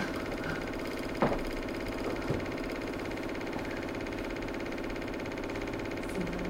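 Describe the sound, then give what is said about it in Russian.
A computer fan runs with a steady, even whirring hum that holds constant throughout, broken only by a couple of faint clicks. “А, вентилятор работает так.”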